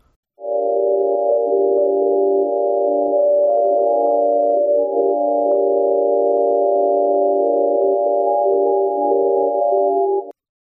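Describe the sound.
A 1937 painting converted into sound by a software program produces a steady, buzzing stack of sustained electronic tones at nearly constant loudness for about ten seconds before stopping abruptly.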